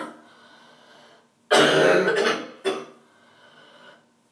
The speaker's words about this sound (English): It sounds nasty, but it actually feels good to get that phlegm out.